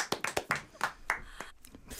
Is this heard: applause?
yes